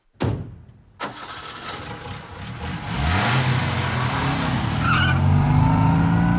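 An early motor car pulls up and skids to a stop, a sharp start and a crunch of tyres giving way to a rising, steady engine drone that grows louder and keeps running, with no voices.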